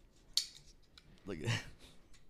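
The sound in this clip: Scissors cutting hair: a sharp, faint metallic snip, then a longer rustling cut a moment later, both quiet against low background noise.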